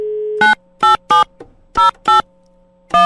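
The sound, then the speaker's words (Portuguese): A steady telephone dial tone sounds while a number is called back, followed by six short electronic beeps in an uneven pattern. “Peraí que eu vou ligar de novo pro São Paulino que eu fixei o número dele.”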